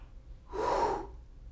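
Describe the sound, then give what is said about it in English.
A person breathes out onto others in a single short, forceful puff of breath that swells and fades within about half a second. It is fairly soft and heard alone, without talk. “He breathed on them. Can y'all do that?”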